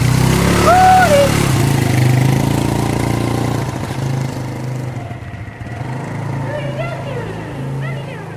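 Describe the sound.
Car engine with a faulty starter warming up and idling: a steady, low, slightly uneven rumble that runs throughout and eases a little in loudness midway.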